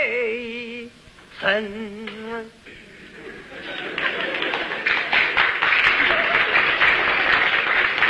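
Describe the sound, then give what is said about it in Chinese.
Audience applause at a stage comedy performance follows a short sustained vocal phrase, then swells into dense, steady clapping that holds loud to the end. “那这鼓掌的人不多呀、啊，鼓掌的人都是南方人”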